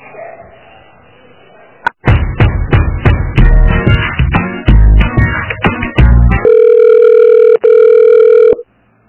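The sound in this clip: A telephone call starts with a rapid run of many keypad taps and clicks, then a loud, steady ringing tone that holds for a couple of seconds.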